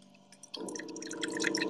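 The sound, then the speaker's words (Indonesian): Water pours and drips with bubbly, trickling tones that start after a quiet low hum and then run on faintly and steadily. “Ini adalah suara generator air.”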